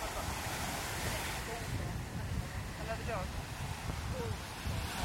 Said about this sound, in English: This is the tide meaning business now, isn't it? Oh, yeah, yeah. The tide's coming right in now.